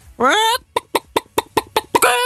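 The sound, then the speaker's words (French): A human voice imitating a hen: a drawn-out rising squawk, then a rapid, rhythmic series of short, clipped clucks, ending in another loud, stretched squawk. “je sais très bien faire des animaux, sinon. Ah, vas-y alors. La poule, ok.”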